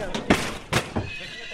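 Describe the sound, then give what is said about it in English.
Przewalski's horse mare neighing, a few short, bright whinnying bursts with quieter pauses between them. “A mare named Tessa, the first of her kind to set foot in Kazakhstan for two centuries.”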